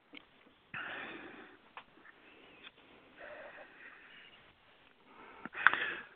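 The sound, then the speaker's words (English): Deep breaths taken together by a group at the start of a guided meditation: a few long, soft, airy inhales and exhales separated by brief pauses, with no talk. “why don't we all just take three deep breaths”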